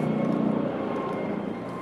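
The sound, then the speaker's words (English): A fire rescue helicopter flies overhead on a crisp winter morning above city buildings, giving a steady engine drone with a faint tonal hum that fades a little toward the end. “yes, that is a helicopter. Looks like a fire one, maybe? Fire rescue?”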